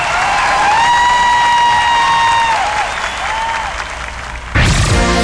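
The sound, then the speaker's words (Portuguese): Audience applause for a performer, a dense, steady roar of clapping with cheers and whistles, holding loud for several seconds before an abrupt change near the end. “Uma salva de palmas, Fabinho Melo.”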